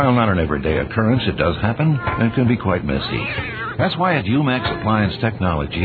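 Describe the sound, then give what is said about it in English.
A cat in a tumbling clothes dryer meows under steady narration that continues over it for the whole stretch. “Sound familiar? What you're hearing is a cat in a dryer.”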